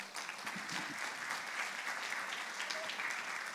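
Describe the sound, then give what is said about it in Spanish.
Audience applause at an international peace gathering rises as steady, dense clapping that holds evenly throughout at a moderate level. “Um aplauso para eles”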